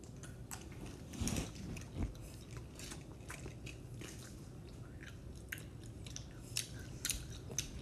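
Soft chewing of a strawberry-flavoured candy, with faint, irregular moist bites and light crunches repeating throughout and no talk.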